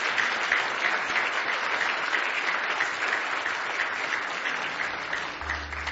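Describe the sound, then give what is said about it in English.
Audience applause at a church service as visiting folks are welcomed, a steady, dense round of clapping that carries on without a break for the whole stretch. “Give those folks a nice hand tonight.”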